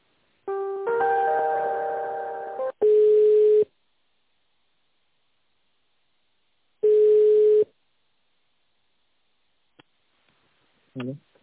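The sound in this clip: Telephone ringback tone while a call is transferred: two steady, mid-pitched beeps of under a second each, separated by a long silent gap. A brief harmonic tone comes before them, and a faint short click follows near the end.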